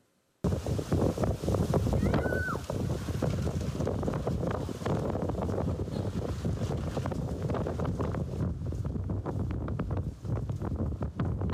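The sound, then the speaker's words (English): Strong wind buffeting a camera microphone on a path out to a bay the day after a hurricane, a loud, rough, rumbling roar that starts abruptly and continues with constant gusty flutter. “Hear the wind just whipping against the camera.”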